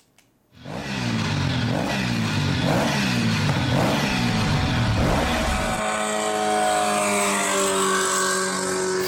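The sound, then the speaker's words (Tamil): A vehicle speeds along at high speed with a loud, continuous engine roar. Its pitch climbs again and again, like a run of gear changes, then settles into a steadier, higher drone. “எப்படித்தான் இவ்வளவு வேகமா வண்டி ஓட்டுறாங்களோ!”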